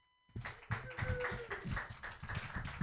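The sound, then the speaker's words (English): Audience clapping for a comedian at an open mic night, a modest, uneven patter of hands that begins suddenly and continues at a moderate level. “So please clap your hands together for Mr. Anurag Papalu.”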